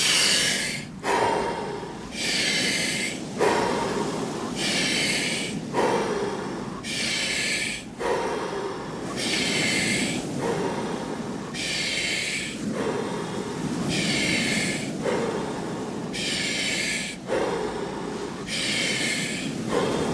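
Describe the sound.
Deep breaths go steadily in and out through the mouth during a guided breathing exercise, many rhythmic breathy rushes of air alternating in a slow, even cycle with little pause between them.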